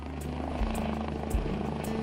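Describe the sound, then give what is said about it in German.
A rescue helicopter landing at the Wangerooge airfield makes a faint, steady rotor drone with soft rhythmic blade thumps throughout the short stretch. “Der Rettungshubschrauber landet auf dem Wangerooger Flugplatz.”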